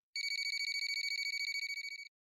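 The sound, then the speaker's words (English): A telephone rings with a single high-pitched electronic trill of rapid, evenly pulsed beeps lasting about two seconds, then cuts off into silence. “And after a few moments, the phone rang.”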